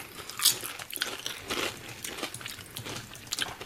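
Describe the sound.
Crunching of a smoky, chip-like snack bitten and chewed during a tasting, a quiet run of many crisp, crackly bites and chews at an uneven pace, with no talk over them.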